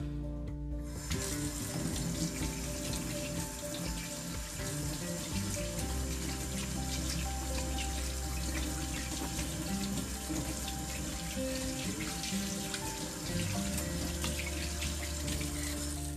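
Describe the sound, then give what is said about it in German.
Water runs steadily from a tap while hands are washed during cookie baking. A continuous hissing splash lasts about fifteen seconds with slight shifts in the flow, and no one talks. “Ich wasche mir dann kurz die Hände.”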